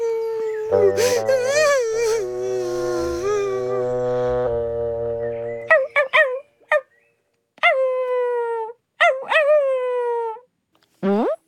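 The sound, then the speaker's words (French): A puppy crying and howling: a long, wavering, tonal howl, then several short, sharp whimpers that rise and fall in pitch, separated by brief silences. “Et maintenant, il n'arrive plus à s'arrêter de pleurer.”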